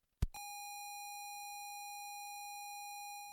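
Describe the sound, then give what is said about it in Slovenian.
Beeper tone from a ZX Spectrum computer: a faint click, then one steady, buzzy electronic note held unbroken for about three seconds before it tapers off slightly at the end. “V ozadju namreč lahko slišite zvoke ZX Spectruma, enega prvih računalnikov,”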